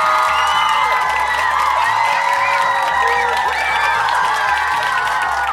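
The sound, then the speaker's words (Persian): A live show audience cheers and claps for themselves when asked to give an energetic round of applause. The cheering and clapping are steady and dense, holding an even loudness for the whole clip. “حالا که دستتون بالاست یه دست پر انرژی به افتخار خودتون بزنین.”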